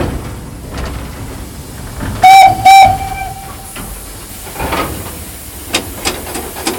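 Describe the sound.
A steam locomotive built by ČKD gives two short, shrill whistle blasts in quick succession over a steady background hiss, followed by softer scattered mechanical knocks.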